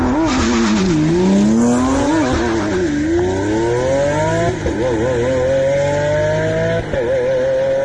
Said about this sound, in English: You can hear it, how slow the shifts are, and that's in full, like, full kill mode. So, but nevertheless, despite that, I think the Aventador,